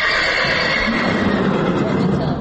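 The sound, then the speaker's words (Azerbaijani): Horses whinnying inside a stable, greeting a familiar handler; a high, wavering neigh rings out over a dense, continuous bed of sound that stays fairly even in loudness throughout. “Tövləyə girən kimi tanış səsə səs verir atlar.”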